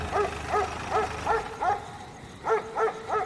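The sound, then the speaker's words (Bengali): A dog in a garden barks in a deep voice, eight barks in two bursts: five evenly spaced barks, a short pause, then three more in quick rhythm, with no talk. “বাড়ির সামনে এসে গাড়ি থামতেই বাগানের দিক থেকে একটা কুকুর গম্ভীর গলায় ডেকে উঠল।”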